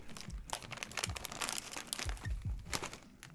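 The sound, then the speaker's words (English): Crunching of thick, very salty potato chips being chewed, with many dense, brittle crackles and snaps in a rapid, irregular stream and no talk. “It is the double crunch. It is the entire purpose. A little bit of ASMR. The chips feel a bit too thick. Yeah. It's almost a little difficult to eat.”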